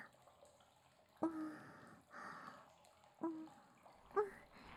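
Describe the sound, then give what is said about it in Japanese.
Soft, wet lathering and scrubbing of soap foam during washing. A few short, squishy bursts with faint squeaks rise over a quiet background. “泡泡泡泡。こんな感じかな。ええ、 洗っていきますね。”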